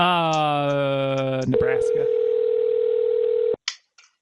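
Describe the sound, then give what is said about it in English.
A telephone ringback tone on a call to a Walmart store sounds as one steady, sustained tone of about two seconds, followed by a couple of short clicks. “I don't think they are going to pick up the phone here at Walmart.”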